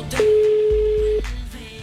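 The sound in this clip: A telephone call is placed to a number other than the radio station's. A single steady electronic tone holds for about a second over a low rumble, then cuts off.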